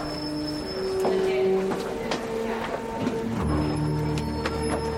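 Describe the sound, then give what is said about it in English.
A hotel elevator going up hums steadily, with scattered mechanical clicks and a shift in its drone partway through as people talk. “I'm taking you up in our mood elevator.”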